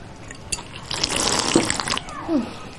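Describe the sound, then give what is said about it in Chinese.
Tap water runs as someone washes their hands at a sink, a short splashing burst of about a second that is fairly faint, with quieter wet handling noises before and after. “你洗手之后能不能轻点啊？这多少年了都改不过来。”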